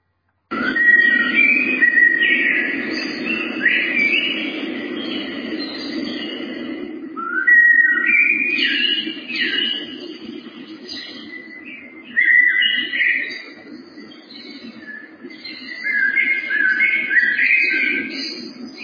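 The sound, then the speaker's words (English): Early-morning spring woodland birdsong: many overlapping whistled calls and trills, some dove-like, run continuously and fairly loud over a steady low hum of ambient noise. “A recording of early morning in spring, somewhere in some woods,”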